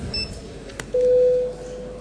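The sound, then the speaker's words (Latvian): A parliament chamber's voting signal: a steady, mid-pitched electronic tone that starts abruptly partway through and holds unbroken to the end, preceded by a faint short click. “Lūdzu zvanu. Balsošanas režīmu.”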